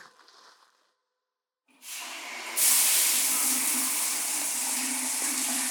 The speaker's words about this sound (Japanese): シャワーをかけたらさらにパチパチしてますね。